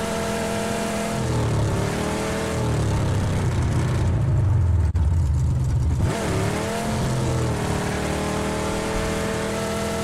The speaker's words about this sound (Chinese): 虽然觉得有点酷炫，但是好吵死了。这兰博基尼啊！